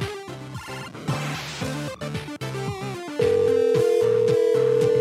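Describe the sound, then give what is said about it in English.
A landline telephone rings with an incoming call, playing a busy run of electronic ringtone notes before settling into a loud, sustained steady tone for the last couple of seconds. “Oh, someone's calling. Excellent.”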